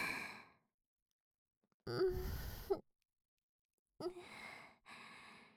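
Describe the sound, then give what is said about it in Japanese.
Heavy, ragged breathing: loud, sighing breaths separated by short silent gaps, with no other sound around them. “収まりましたね。呼吸ものすごい荒いですが、大丈夫ですか？”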